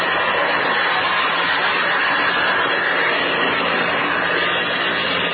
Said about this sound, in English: Okay, I'll open the throttle and stick your nose up.